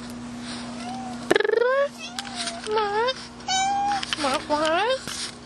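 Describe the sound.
A house cat meows repeatedly, giving several high, rising-and-falling cries and chirps, with a person's voice talking to it in between and a steady low hum underneath.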